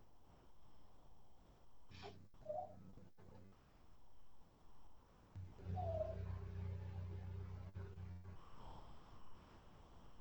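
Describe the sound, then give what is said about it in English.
A small dog coughs in a few short, rough, snorting hacks, faint and separated by quieter pauses, over a low steady hum. “it's our little dog coughing. You can hear that.”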